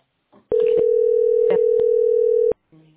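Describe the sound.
Telephone ringing tone on an unanswered call: one steady, loud mid-pitched tone lasting about two seconds, with short faint sounds just before and after it.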